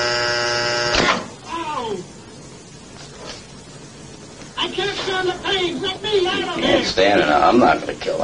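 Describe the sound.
An electric shock generator set to 180 volts gives a harsh, steady buzz for about a second at the start. Then voices talk and cry out, with a rough noisy texture underneath.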